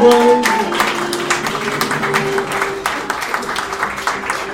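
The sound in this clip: Audience applause after an improv match, steady clapping with sharp individual claps standing out, and a voice heard briefly at the start.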